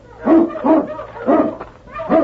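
A large dog whimpers in the snow, giving several short whining yelps in a loose, repeating rhythm, fairly loud and on its own.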